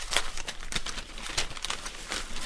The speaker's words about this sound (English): unwraps the fillets of salmon in her kitchen